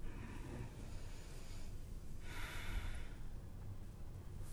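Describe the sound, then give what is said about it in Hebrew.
A deep breath taken during a yoga session, with soft airy breathing sounds that are faint and stand alone without speech. “קח נשימה עמוקה.”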